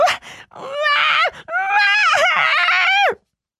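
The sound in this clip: Screaming from a voice acting as a little pudding figure scorched by flames: a few loud, high, strained cries of varying pitch, the last one long and wavering before it cuts to silence.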